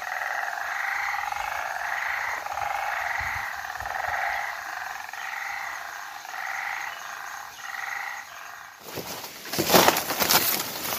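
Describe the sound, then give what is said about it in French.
Frogs croak in a rain-soaked forest on Mauritius: a steady chorus of many repeated, mid-pitched calls, followed near the end by a short burst of noisy rustling. “Je pense que c'est des grenouilles.”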